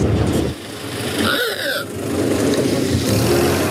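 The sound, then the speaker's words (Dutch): A Ford Model T car engine running, giving a steady, loud mechanical rumble for about four seconds, with a brief higher tonal whine partway through. “Het begint uiteraard bij Henry Ford en zijn legendarische Ford T. Die klinkt zo.”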